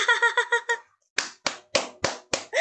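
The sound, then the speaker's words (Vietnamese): Bare hands clap in a quick run of about six sharp, evenly spaced claps, then a brief silence before five louder, slower claps with a faint voice at the end. “Phạm Tiến không thấy thì thôi, chứ đã nhìn thì đọc đi đọc lại rồi vỗ tay reo.”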